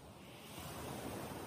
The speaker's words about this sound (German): Und du beobachtest einfach mal, wie die Schaumkronen an Land spülen und gleichzeitig wieder zurückfließen.